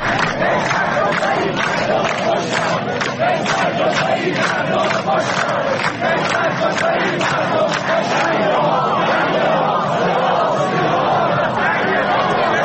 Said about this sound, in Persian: همون مردمی که توی مراسم تشییع ناصر ملک مطیعی صدای اعتراضشون رو اینجوری به گوش همه رسوندن.